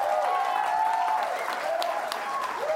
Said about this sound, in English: Y'all give him a big hand.